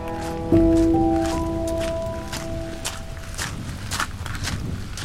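A man walks on an island toward a red brick building under grey rain clouds, his footsteps a steady, soft series. A few sustained musical tones fade out early on.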